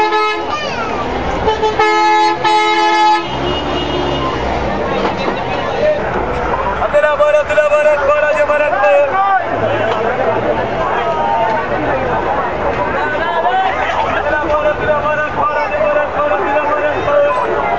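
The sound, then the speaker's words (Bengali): Car and bus horns honk repeatedly over the steady rumble of traffic and the babble of many voices at a crowded bus stand in Tejgaon, loud and busy throughout. “এই মুহূর্তে তেজগাঁয় বাস স্ট্যান্ডটি লোকে লোকারণ্য, অনেক লোক ছুটছে নিজ নিজ গন্তব্যের দিকে।”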